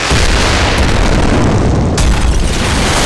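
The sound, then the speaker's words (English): Booming explosion sound effect made for action movies: a loud, sustained rumbling blast heavy in the low end, with a second sharp burst cutting in about two-thirds of the way through. “Is the sound effects library you need to make your next summer blockbuster go boom.”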